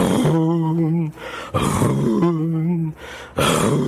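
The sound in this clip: A voice imitates a ship's horn blowing three times: three loud, sustained, low droning hoots. The first two are long and steady, and the third is cut short at the end.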